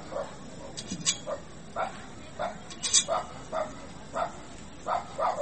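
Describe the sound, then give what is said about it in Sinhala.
A dog barking, a long run of many short, fairly faint barks at a steady but slightly uneven pace over a low background hiss. “බල්ලෙක් පුරනවා ඇහෙනවා නේ? ඇහෙනවා.”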